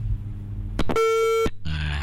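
A phone call's disconnect tone: one steady mid-pitched beep lasting about half a second, preceded by a short crackle and followed by a burst of noise.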